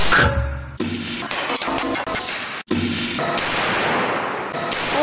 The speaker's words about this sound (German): Ein Mitarbeiter hat allerdings aus allen Versuchsvideos die Seilrisse mal zusammengeschnitten zu einem großen Silvesterknall. Und das klingt so.